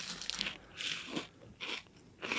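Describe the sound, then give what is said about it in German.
Crisp crunching of a snack being eaten, several sharp bites and chews in an uneven rhythm, fairly quiet and with no talking. “Okay, einen esse ich noch.”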